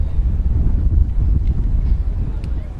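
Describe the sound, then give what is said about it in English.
Wind gusting across a breezy evening baseball game at the Marauders' home ground, heard as a steady low buffeting rumble with soft rises and dips. “As the wind picks up here, it is a breezy evening. Probably one of the windiest games the Marauders have played in at home this year.”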